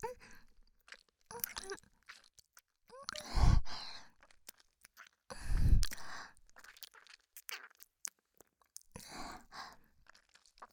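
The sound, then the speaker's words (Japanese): A voice imitates chewing and eating an ear with close wet mouth sounds: scattered smacks and crunchy bites, a few louder chewing bursts and soft breathy sighs between them. “おじさんのかわいいお耳も食べちゃう。”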